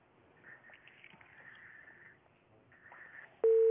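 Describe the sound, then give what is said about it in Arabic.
A telephone busy tone after a call disconnects: a loud, steady single-pitched tone cuts in abruptly at the very end, following a few seconds of faint, muffled line noise. “انقطع الاتصال إلى أن يأتي اتصال”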